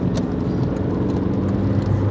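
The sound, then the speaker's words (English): Engine noise inside a red K-plate Nissan Almira while it overtakes a slow van: a steady, dense engine hum mixed with road rumble, with no clear change in pitch. “Excuse me, I'm doing an overtake that I probably shouldn't.”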